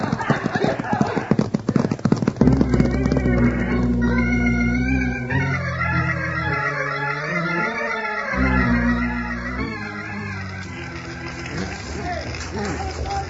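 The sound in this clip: Galloping horses carry riders racing toward a forest fire, their hooves beating a loud, fast, continuous clip-clop rhythm that runs throughout.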